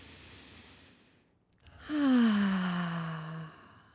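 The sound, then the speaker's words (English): A deep breath taken together on a count: a faint, airy inhale, then after a short pause a long voiced exhale that sighs out loudly and slowly falls in pitch before fading. “we can take a deep breath on the count of three. 1, 2, 3.”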